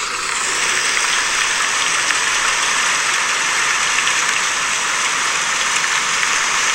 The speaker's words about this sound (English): the sound that I use is called Beach Rain and Thunder, and it sounds like this.